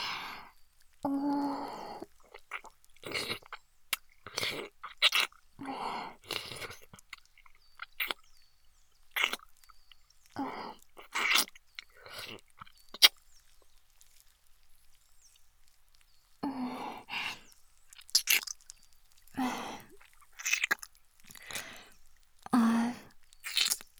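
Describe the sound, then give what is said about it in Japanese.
Wet licking and mouth sounds from a tongue during an ASMR massage: many short, crisp smacks and clicks in irregular clusters, with a quiet gap midway before the smacking resumes. “エロエロってベロベロ舐めながらマッサージさせていただきますね。”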